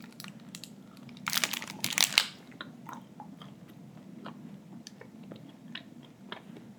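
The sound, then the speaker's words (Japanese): A loud burst of wrapper crinkling, then soft crunching and chewing of a Snickers chocolate bar, with faint clicks of chewing continuing over low background noise. “スニッカーズすごいな。 これ初めて食ったスニッカーズ。”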